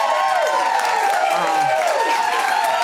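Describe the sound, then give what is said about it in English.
A small, enthusiastic audience in a back studio at ABC in South Bank cheers and claps. Dense, continuous applause mixes with whooping, shouting voices. “Absolutely, an intimate audience, yes. However, it should be said, a very enthusiastic audience.”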